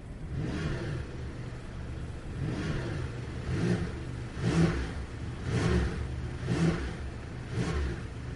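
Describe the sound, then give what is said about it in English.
A new Porsche 911 T-Hybrid accelerates on the roads in Dubai, its engine note climbing in repeated surges that rise, drop back, and build again several times in a steady rhythm, with a low rumble underneath. “let's get this new for 2025-26 Porsche 911 T-Hybrid out on the roads here in Dubai in this Real World Road Test.”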